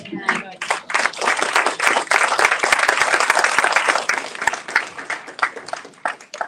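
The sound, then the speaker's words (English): Applause at a school board meeting for two guests, one of them a captain, thanked for keeping children and schools safe: dense, sustained clapping from a crowd for the whole stretch, with voices faintly under it. “Can we give them both a round of applause?”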